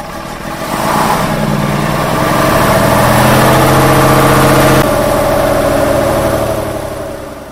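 A vehicle engine idles with a steady, low rumble that swells after the first second, holds evenly, then eases down near the end.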